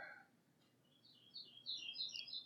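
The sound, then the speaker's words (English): Morning birds chirp faintly, with many short, high tweets that come in a loose, irregular cluster and grow a little busier toward the end over quiet background hiss. “to the sound of the birds chirping”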